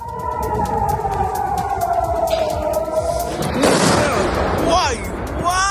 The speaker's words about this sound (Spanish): Lo que escuchabas es el tipo de armas que utiliza el régimen iraní. Se trata de misiles que llevan ojivas de racimo, diseñadas para abrirse antes de caer y dispersar proyectiles